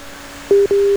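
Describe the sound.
Telephone ringing tone on an incoming call line: two short, steady mid-pitched beeps in quick succession over a faint line hum, the second beep longer than the first.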